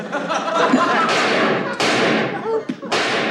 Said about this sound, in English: Dad's shooting at Mr. Kirby again.